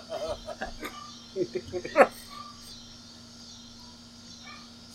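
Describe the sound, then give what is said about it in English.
Cicadas buzz outdoors in a faint, steady insect drone that runs throughout while people talk over it. “The title of this episode is Something with Cicadas. So, because there's a bunch. They're okay right now. Oh, there's one brewing up a storm down there”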